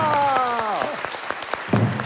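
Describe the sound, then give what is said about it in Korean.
Applause from an audience at a Korean comic performance: a steady run of sharp, closely spaced claps lasting about two seconds, with a voice trailing off at the start. “박수 한번 쳐드립시다.”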